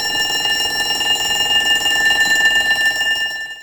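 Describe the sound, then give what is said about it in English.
An electric school bell rings continuously, a loud, steady metallic ringing with a bright buzzing tone that holds for several seconds before cutting off abruptly. “So, what's that sound? Shout it out. A school bell.”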